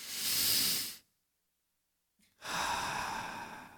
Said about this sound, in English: We're going to take a deep breath now.